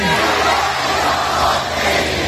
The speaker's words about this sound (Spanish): este es el sonido de sus calles, el sonido que el régimen permite que se difunda, claro, porque escuchas los vítores que supuestamente la población iraní le dedica a su nuevo líder